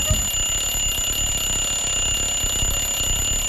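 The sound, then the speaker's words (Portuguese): An alarm clock ringing with a steady, piercing high-pitched electronic tone that holds without a break, loud and heard alone. “Ô meu, solta aí, despertador.”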